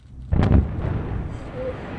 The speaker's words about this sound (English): Chris Bentley's trip to the Sunrock Quarry in North Carolina, where he watched 50,000 tons of stone get blasted to smithereens.